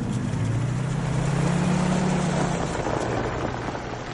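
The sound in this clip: A van's engine runs as it pulls away, giving a steady low rumble under a broad hiss that eases slightly toward the end.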